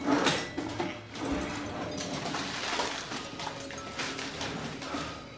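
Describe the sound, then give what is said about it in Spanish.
A drawer is pulled open, giving a sliding, scraping mechanical rattle that runs steadily for several seconds, with a few small clicks and knocks along the way. “Abre un cajón.”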